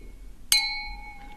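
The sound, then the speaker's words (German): Glasses clink together in a toast over a drink: a single bright, sharp clink that rings on with a clear, sustained glassy tone and fades slowly against quiet background. “Jetzt aber mal ein Schlückchen. Vorher müssen wir natürlich jetzt mal anstoßen.”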